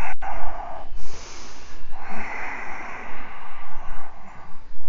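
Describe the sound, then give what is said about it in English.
Deep, audible breathing during a yoga session, a few long, noisy inhales and exhales that follow one another steadily. “Exhale. Inhale, exhale.”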